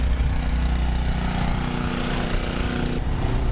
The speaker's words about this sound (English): Later on, as I'm walking past, someone starts a small generator on his seiner.